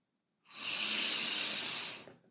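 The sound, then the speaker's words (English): A single deep breath drawn in through the nose during a guided mindfulness exercise: a long, airy hiss that starts abruptly, holds steady for nearly two seconds, then fades. No one speaks. “And now take a third breath in through your nose, as deeply as possible.”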